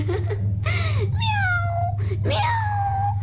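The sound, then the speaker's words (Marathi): A cat meows a few times, drawn-out mid-pitched calls that slide downward in pitch, over a constant low hum. “मनी मनी म्याऊ म्याऊ”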